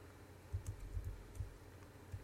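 Faint typing on a computer keyboard: a handful of soft, irregular key taps with short gaps between them, set against a low, quiet background.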